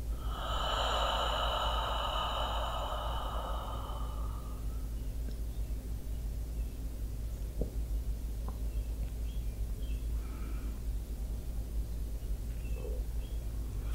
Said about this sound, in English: And now we're ready to take a deep breath in through the nose and out.